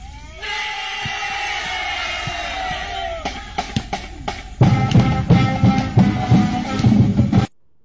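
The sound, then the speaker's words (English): A crowd roars in ovation after a kid sinks a basket, loud sustained cheering with sharp yells and whoops that surges louder midway, keeps going, then cuts off abruptly. “Kids outside shooting hoops. Band cruises by. Kid sinks one. Gets the ovation.”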